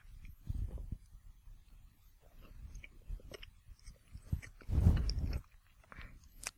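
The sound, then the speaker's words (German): Smacking chewing of bread topped with a dark, caramel-flavoured spread: soft, irregular wet mouth clicks and crunches, quiet throughout, with a louder burst of chewing near the end. “Entschuldigung für das Schmatzen.”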